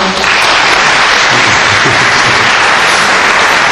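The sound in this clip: An audience at a public talk applauds, a loud, dense and steady clatter of clapping that fills the whole clip with no gaps and no voices heard.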